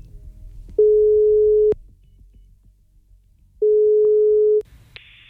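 A telephone ringing tone repeats twice, each a steady mid-pitched tone of about a second, with a quiet gap of roughly two seconds between them. A brief higher beep follows at the end.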